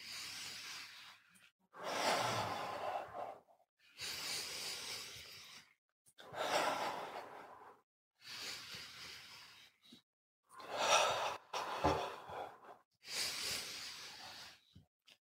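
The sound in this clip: Slow deep breathing during a breathing exercise, done eyes closed while swaying the arms forward and back: a series of long, airy, hissing breaths separated by short silent pauses.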